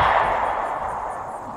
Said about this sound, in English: Suddenly, a shot rang out.